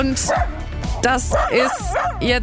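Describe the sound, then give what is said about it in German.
A dog in a bicycle trailer yips and whimpers in a few short, rising, whiny cries while a person talks over it. “Das ist mein Hund Cooper. Ich glaube, er sagt damit, ich mag diesen Fahrradanhänger nicht so wirklich.”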